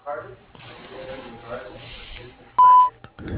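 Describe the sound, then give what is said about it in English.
A voicemail tone before recording a message: one short, clear electronic beep sounds after a spoken greeting, followed by faint clicks and noise. “Please leave a message at the sound of the tone.”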